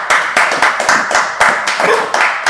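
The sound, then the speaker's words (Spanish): Audience applause at a school celebration: dense clapping from many hands, loud and continuous, with uneven bursts of sharper claps throughout. “Aplausos, sí, por supuesto, está bien.”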